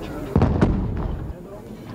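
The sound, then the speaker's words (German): Heavy artillery booms from five army guns firing a salute at a state welcome ceremony: a few deep, loud blasts close together, then a lingering rumble that fades. “drüben die fünf Geschütze der Bundeswehr beginnen Salut zu schießen.”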